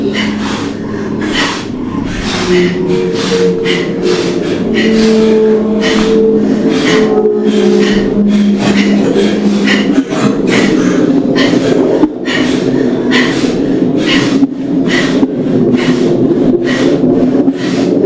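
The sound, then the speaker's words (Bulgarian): Deep, forceful breathing during a breathing exercise: many rapid, regular breath bursts repeat loudly and steadily throughout, over a faint low tonal hum. “Давай, дишай, дишай, дълбоко, дишай дълбоко.”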